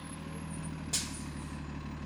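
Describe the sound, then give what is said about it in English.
A city bus arrives, its low, steady engine drone broken by a single short, sharp burst of air-brake hiss midway, all fairly faint. “It's Thursday morning. Tiana Ortiz steps onto a bus with her new personalized card.”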